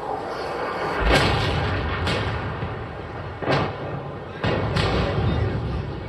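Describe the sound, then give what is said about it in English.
Heavy booms from the bombing of a Taliban barracks in Kabul, recorded during the attack. Several deep, loud thuds strike at irregular intervals over a constant low rumble. “This was recorded in a Taliban barracks under attack in Kabul, weeks into the bombardment.”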